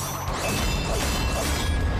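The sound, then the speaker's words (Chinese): A spinning dart is thrown at an enemy in an animated battle, a dense, loud metallic whirring whoosh with repeating swells that carries on unbroken for about two seconds. “炫卡斗士变形，暗影飞镖装备，暗影特工瞄准敌人旋转飞镖， 旋转飞镖。”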